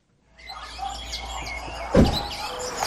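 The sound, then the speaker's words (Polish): Many birds chirping and tweeting outdoors, with overlapping high calls running throughout and a brief dull thump partway through. “Patrz, ile to jest ptaków.”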